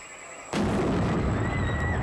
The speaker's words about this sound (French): Tout le monde se met à l'abri pendant que Franklin dispose de la dynamite. Une minute après, l'explosion retentit.